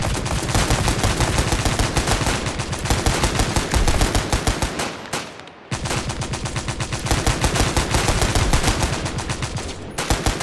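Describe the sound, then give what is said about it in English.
Sustained, rapid gunfire, a volley of many dense, loud shots rattling continuously, pausing briefly midway before resuming just as heavily until the end. “Open fire, lads!”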